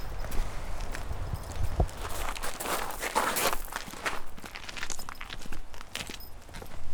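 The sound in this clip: Footsteps cross a grass lawn in a cemetery, a steady run of soft, rhythmic steps at moderate loudness that continues throughout.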